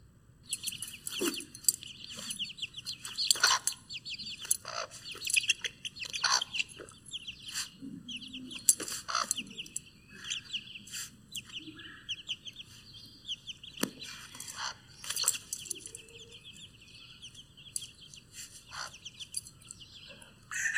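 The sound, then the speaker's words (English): A hen clucks as she protects her chicks. Her low clucks sound now and then under constant, faint high-pitched peeping and chirping that runs through the whole clip. “So here's what a chicken does, an actual example of this hen protecting her chicks.”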